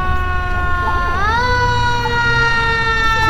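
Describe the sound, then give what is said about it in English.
A fire truck siren wails loudly as a steady tone that rises in pitch partway through, then holds high, with a low engine rumble underneath. “She likes the fire trucks. There's another one.”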